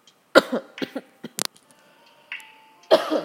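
A person coughing in a quick, irregular run of short, harsh bursts, with pauses between them and one more cough near the end. No other voices.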